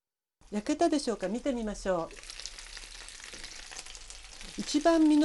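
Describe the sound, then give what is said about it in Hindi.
Chicken pieces fry in a lidded frying pan over low heat, giving a steady, even sizzle that runs for a few seconds. People talk before and after the frying. “Fry pan को किसी ढक्कन से ढाँप दीजिए ताकि गोश्त अच्छी तरह से गल जाए। धीमी आँच पर मज़ीद 4 मिनट पकाइए।”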